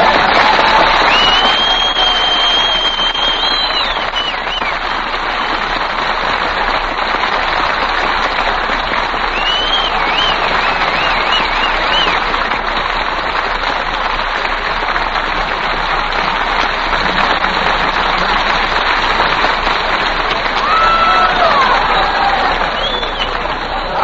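A studio audience applauds in steady, dense clapping that fills all 24 seconds at an even, loud level with no break.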